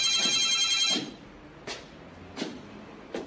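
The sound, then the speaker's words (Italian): A telephone rings with one bright, buzzy trill lasting about a second, then goes quiet apart from a few faint, short noises. “Squillò il telefono. Andò a rispondere.”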